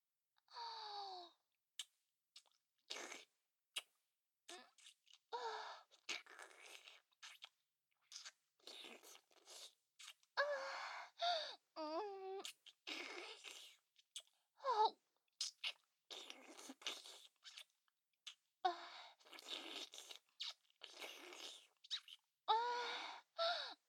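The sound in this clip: Wet mouth sucking and smacking sounds from an ASMR roleplay, made up of many short clicky bursts separated by brief silences, with a few soft breathy vocal sounds mixed in.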